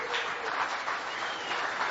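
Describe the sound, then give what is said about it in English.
Applause from an audience at a church service: brisk, steady clapping from many hands at an even level for two seconds, with no talk. “So why don't you guys give each other a big applause”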